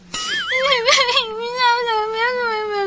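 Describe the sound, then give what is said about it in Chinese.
A person crying in a drawn-out, wavering whimper. The pitch wobbles unsteadily at first, then settles into a long, sustained sobbing wail that lasts nearly three seconds. “你哭什么呀？”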